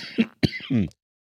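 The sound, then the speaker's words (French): A brief coughing fit: three harsh coughs in quick succession, the last one drawn out and rasping, followed by silence. “Pardon, je crache mes poumons.”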